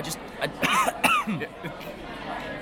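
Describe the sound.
A man coughs and clears his throat after a drink goes down the wrong way, with several harsh, choking coughs in close succession and strained vocal sounds between them.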